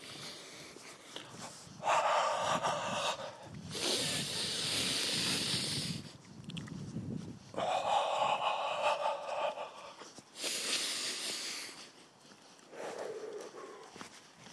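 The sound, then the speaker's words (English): Slow, deep breathing in the evening, heard as a few long, airy hisses of air, each lasting one to two seconds and separated by quieter pauses, with no talking. “Oh, there's nothing like a deep breath in the evening.”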